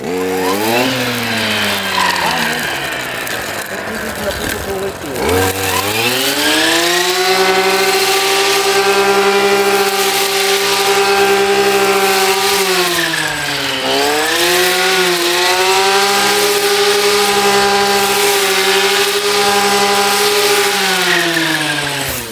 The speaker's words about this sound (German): jetzt nehme ich gleich selber das Gerät in die Hand und das wird wahrscheinlich genauso klingen. Ich mähe jetzt.